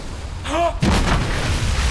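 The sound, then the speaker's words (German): A warship fires its guns at sea: a single heavy cannon boom bursts out suddenly, then trails into a loud, rumbling decay. “Wie? Die schießen auf uns!”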